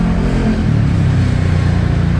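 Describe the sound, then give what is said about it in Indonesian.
Vehicles driving along a newly asphalted road that is still in its final finishing stage, heard as a steady, loud engine hum with a deep low drone and a faint revving pulse throughout, with no talk. “Ya tadi ada videonya juga kawan. Sambil kita tampilkan ya di visual radio. Ini sudah bisa digunakan, ada beberapa kendaraan yang melintas di sana.”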